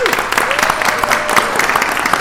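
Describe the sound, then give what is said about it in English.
Applause from an audience welcoming two panel speakers at a meeting, a steady, fairly loud patter of many hands with a voice heard over it. “That we're clapping for them.”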